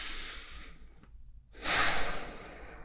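A person breathes in deeply during a calm coaching exercise. A soft airy breath is followed by a brief silence, then a loud, long breath that fills the rest of the moment.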